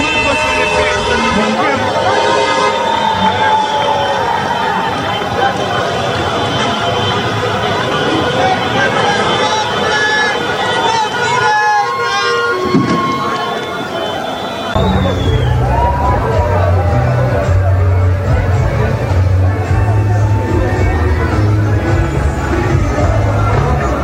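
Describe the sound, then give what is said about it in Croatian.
Street celebration in the capital after a Bosnia and Herzegovina win, with vehicle convoys, sirens, fireworks and fan songs: a constant loud hubbub of crowd and traffic, joined later by a heavier low rumble. “Duge kolone vozila, sirene, vatromet, ali i navijačke pjesme odjekivale su ulicama glavnog grada. Donosimo dio atmosfere.”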